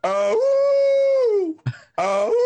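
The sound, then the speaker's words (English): A neighbour's dog howls in two long, tonal calls. The first rises, holds steady, then sinks away. After a short scuffling noise, a second howl starts and climbs before it is cut off. “My neighbor's dog... I shit you not, is howling, just,”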